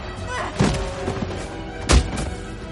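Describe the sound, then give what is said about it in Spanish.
Kicks and blows land in a close-quarters fist fight from the superhero action film Captain America: Civil War. Two heavy, dull thuds stand out over a steady background rumble. “Ella le golpea con una cesta y le derriba de una patada. Salta sobre el primero y derriba a ambos con una acrobática llave. Patea a uno y golpea a otro.”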